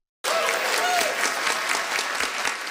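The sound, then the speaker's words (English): A general assembly of an Inuit council bursts into applause as a new declaration is approved. Dense clapping starts abruptly and then holds steady and full throughout. “The Inuit Circumpolar Council's new declaration got a round of applause as it was approved.”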